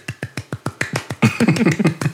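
A person claps by hand to imitate polite audience applause: a run of evenly spaced single claps, then a quicker, fuller burst of overlapping claps toward the end.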